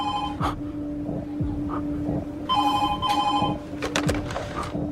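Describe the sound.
A telephone bell rings in several repeated bursts, bright and trilling, over a low steady hum that runs throughout.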